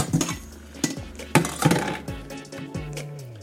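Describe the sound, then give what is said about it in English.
Metal cookware clanks and clinks as a hot pot and colander are handled while draining cascatelli pasta. Several irregular knocks and rattles sound one after another, some sharp and some dull. “Where is my strainer? Colander? There it is.”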